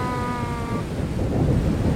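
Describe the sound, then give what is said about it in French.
Strong wind blows across a flat, open seashore with nothing to block it, a steady, dense rushing roar buffeting the microphone that grows slightly heavier in the second half. “Comme c'est plat, il n'y a pas d'obstacle, alors le vent frappe directement ici.”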